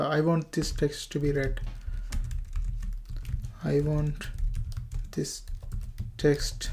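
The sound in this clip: Typing on a computer keyboard, with quick irregular clicks and taps running under a man's voice as he talks steadily throughout.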